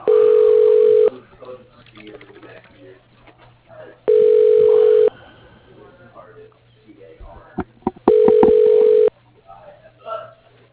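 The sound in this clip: A telephone system rings an extension with three steady ring tones, each about a second long and evenly spaced, with faint low noise and a few small clicks between them.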